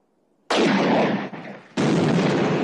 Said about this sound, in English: Explosions knock men and horses down.